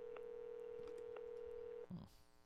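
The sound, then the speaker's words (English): A faint telephone ringback tone on an outgoing call, one steady mid-pitched tone held for nearly two seconds before cutting off into a brief rustle. “I bet it doesn't even ring. Oh, shit, it's ringing.”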